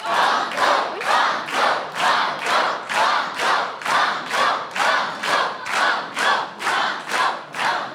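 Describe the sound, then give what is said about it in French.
A game-show studio audience chants "banco" in unison, a loud, steady rhythmic chant with many evenly spaced pulses repeating throughout. “Entendre toutes ces voix chanter banco, ça me fait bouger la tête.”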